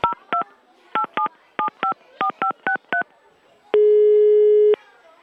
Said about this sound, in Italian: Vabbè, facciamo una cosa. Chiamiamo Batman e glielo chiediamo.